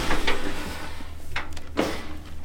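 A livestock trailer door being unlatched and opened beside a rocky hill: a few short clanks and scrapes over a steady low rumble, with no talk.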